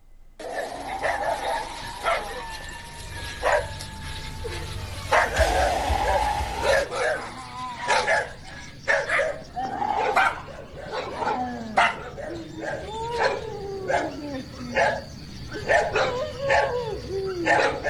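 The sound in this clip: Dogs barking at night, a loud, irregular run of many sharp barks and yips mixed with whimpers, over a low rumbling noise during the first seven seconds.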